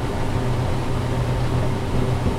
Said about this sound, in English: We step onto what amounts to be the largest, loudest vacuum there is. This is a really expensive vacuum that likes diesel fuel.